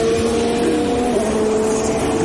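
A Formula 1 car races at the Hungarian Grand Prix as it turns onto the finishing straight, giving a loud, steady, high-revving whine held at a near-constant pitch throughout.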